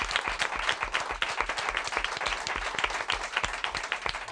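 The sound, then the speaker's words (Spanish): Applause offered at the close of a late-night radio program, brisk and dense with many sharp, closely packed claps that hold a steady loudness for about four seconds. “Y un aplauso muy grande. Un aplauso nuestro para vosotros.”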